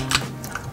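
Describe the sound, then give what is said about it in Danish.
A few faint computer keyboard clicks come in quick succession as a woman plays the video game Blitz Royale at a weekend gaming event at Rødingcentret. “Det, du kan høre her, det er lyden af et tastatur.”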